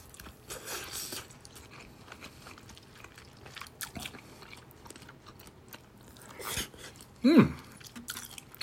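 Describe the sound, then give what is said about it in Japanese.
Someone chews and crunches a meal that includes toasted seaweed, with soft, scattered crunching bites and a few louder crunches near the end. “それではいただきます。咀嚼音がしますので、ご注意ください。”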